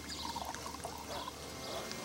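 Drinks trickle into shot glasses at a festive table, a faint, steady pour with small bubbling gurgles running throughout.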